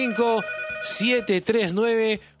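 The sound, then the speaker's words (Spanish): A telephone rings for an incoming call on a call-in program, a loud warbling electronic ring in repeating tonal bursts. “Vamos a pedir llamada telefónica, ahora sí, de manera instantánea”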